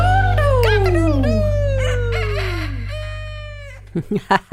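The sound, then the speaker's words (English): A rooster crows loudly in a long, drawn-out call whose pitch slides downward, over a steady low hum. A few short clucks follow at the end. “Have you got a rooster near you? Maybe you live out in the country and there's a rooster.”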